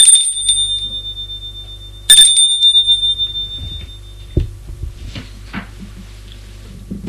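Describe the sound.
A doorbell rings twice: two bright, high electronic chimes about two seconds apart, the second one louder, followed by a few soft clicks and knocks.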